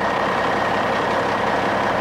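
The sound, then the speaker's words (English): Steady, heavy engine rumble of a truck backing up, a dense unbroken drone with a low throbbing pulse and no clear pauses. “I always invite people to watch as Mandy backs the truck over. Here she comes.”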